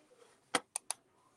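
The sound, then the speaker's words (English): Three crisp, faint clicks of keys being typed on a computer keyboard come in quick succession against near silence. “Let me type in the word control F, gender.”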